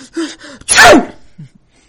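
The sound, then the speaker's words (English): A single sneeze acted out while a children's story is being told, heard as a sharp, loud, breathy burst right after a brief stretch of talk and then fading quickly. “is it your fault when you sneeze? No, it's not your fault when you sneeze.”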